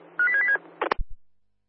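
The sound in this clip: Telephone dialing as a call is placed over a radio channel: a brief run of clear electronic tones, followed by a few short, low clicks that fade into silence.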